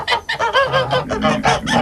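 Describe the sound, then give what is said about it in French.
A rooster in a farm garden calls early in the morning with a loud run of many short, harsh, strongly harmonic squawks and honks in quick succession, with no talk over them. “Le coq à 5h du matin, c'est agréable.”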